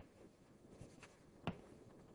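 Faint pen-like scratching while an equation is written out, a few soft strokes followed by one sharper tick, over a quiet background.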